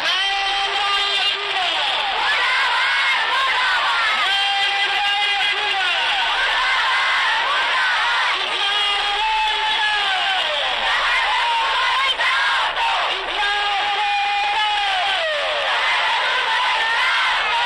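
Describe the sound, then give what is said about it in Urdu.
Protesters, children among them, chant slogans at a demonstration outside the Balochistan police chief's office, held in memory of a missing seven-year-old girl; loud voices repeat rhythmic phrases in a continuous, urgent chant. “اس موقع پر شرکا نے یہ نعرے لگائے۔”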